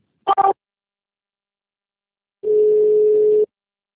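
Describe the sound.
A telephone line tone as a call is transferred: a brief blip, then a pause, then one steady, level tone lasting about a second before the line goes quiet.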